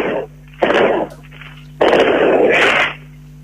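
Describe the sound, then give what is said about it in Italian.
Fireworks going off at New Year's midnight, heard as three loud, dense bursts of crackling and popping, the last one longest, separated by brief quieter gaps. “accesi dei fuochi di artificio”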